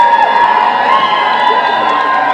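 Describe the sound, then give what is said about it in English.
A crowd at a stage event celebrating new silver achievers screams and shouts, a loud, sustained wall of high-pitched cheering and whooping voices with no break. “So, hands up, those of you that walked across the stage this morning as a new silver. We've got some people, I want to see your hands. You've got to be screaming and shouting pretty good.”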